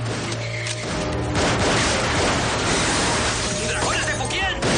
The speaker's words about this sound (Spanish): Nick sigue disparando a los agresores en el pasillo.